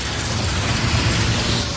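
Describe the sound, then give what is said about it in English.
Road traffic on a street heard as a dense, steady roar with a low rumble underneath, loud and unbroken throughout. “What is that? This is traffic.”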